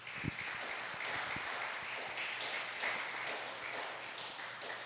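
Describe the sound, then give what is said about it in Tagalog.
Applause from a church audience clapping for the Lord, a dense and steady patter of many hands that holds at an even level throughout, with no voices standing out. “pwede pa natin palakpakan ng Panginoon”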